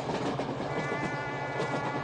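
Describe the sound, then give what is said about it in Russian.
Passenger train crossing a long bridge toward a riverside town: a steady, dense rumble with rattling clatter from the wheels and cars that holds an even loudness throughout about two seconds. “По длинному мосту поезд подъезжает к городу на берегу широкой реки.”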